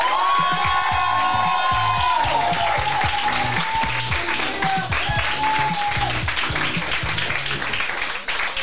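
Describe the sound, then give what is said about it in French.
Audience applause and cheering at a season's final live show: dense, continuous clapping with shouts and whistles rising above it, sustained and loud throughout. “je vous demande un tonnerre d'applaudissements pour Fred”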